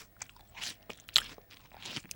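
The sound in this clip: Biting into and chewing a plum: a few short, crisp, wet crunching bursts at irregular intervals, fairly faint, with no talk.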